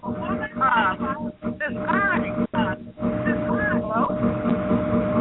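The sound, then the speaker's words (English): Engine and road rumble from a car a caller is driving, picked up by her open microphone: a steady low drone runs under voices talking throughout. “Yeah, somebody's got background on. Can you mute somebody? What is going on? I don't know what. She's driving. I think she probably driving. Are you driving? Yeah, it did sound like she was kind of driving.”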